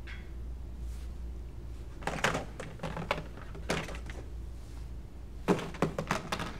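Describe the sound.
Plastic tubs are handled and set down, giving a few quiet hollow thunks and clattering knocks in short clusters over a low steady background hum.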